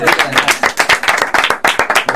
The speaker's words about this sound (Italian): Complimenti, bravissimi. Devo dire che applauso a voi stessi.